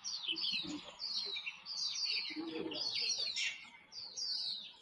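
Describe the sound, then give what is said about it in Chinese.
Birds call in a quick run of high, chirping tweets that come in overlapping bursts, faint and continuous throughout. “这是鸟叫声。”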